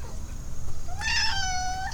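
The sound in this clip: A single drawn-out cat meow starts low, rises quickly and then holds as a bright, sustained call for about a second over a steady low background hum.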